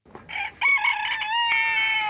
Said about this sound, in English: You might have heard that roosters crow at the break of dawn.